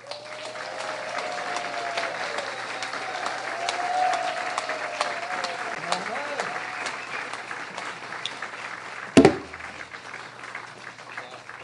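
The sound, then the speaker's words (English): Sustained audience applause and crowd noise for a band at a live show, steady clapping throughout with a sharp knock near the end. “So, put your hands together, and let's hear it for the Band of Pirates.”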